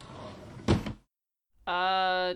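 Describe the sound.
A dresser drawer is pulled open with a short wooden scrape and thud, followed by silence and then a voice speaking.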